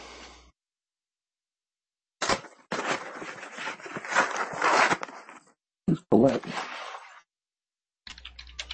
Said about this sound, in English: Call it 7, and roll a d20, please.